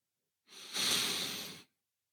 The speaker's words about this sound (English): I breathe. I inhale deeply.